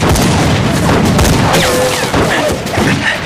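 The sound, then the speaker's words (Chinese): Gunfire as a shot is fired during a tense confrontation between armed men, a loud, dense, sustained blast of noise that barely eases across the whole stretch. “谁让你开枪的？”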